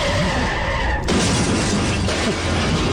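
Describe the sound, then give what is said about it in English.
A garbage truck driving past a house: a loud, continuous rumbling clatter, with a harsher burst of metallic crashing partway through that stays dense and noisy to the end. “Somebody just drove by my house. I don't know if that was what you heard, a garbage truck.”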